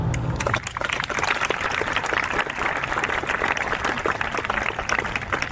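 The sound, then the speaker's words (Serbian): Applause opens the Beldocs festival in Belgrade, a dense, even burst of many hands clapping that holds steady from start to finish. “Ja bih hteo da otvorimo festival jednim aplauzom za sve goste koji nisu mogli da dođu zbog pandemije COVID-19.”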